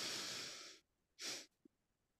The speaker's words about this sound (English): Go again, breathe in. Hold 3, 2, 1. One more time, breathe in.